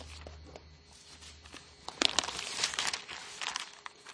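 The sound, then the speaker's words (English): Bible pages turned, a dry papery rustle that starts softly and swells into a burst of crinkling flips partway through, continuing as several uneven rustles. “Please turn your Bibles to Isaiah chapter 53 and see what we can glean from it.”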